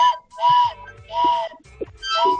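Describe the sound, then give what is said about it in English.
Train whistle blown in a few fairly loud, breathy, chord-like blasts of similar length, separated by short gaps, with no talk. “What is that? This is train. Well, we got a train whistle and we got a harmonica.”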